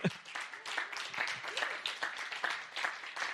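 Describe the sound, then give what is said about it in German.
An audience claps for Jesus at a Christian teaching gathering, a faint, steady patter of many hands that continues throughout. “Ja, wir dürfen einfach mal klatschen für Jesus.”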